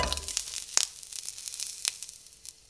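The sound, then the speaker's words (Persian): Meat browning on both sides in a pan for an herb stew: a faint, steady sizzle with a few sharp crackles and pops. “خب دو سمت گوشت که کامل سرخ بشه، گوشتو از توی ظرف در میارم و پیازو میریزم.”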